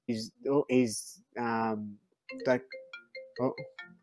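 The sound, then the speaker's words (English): A mobile phone ringtone plays a melodic electronic pattern: several short tonal notes, then a sustained held tone, then a run of brief chiming notes. No other sound accompanies it. “my phone's ringing.”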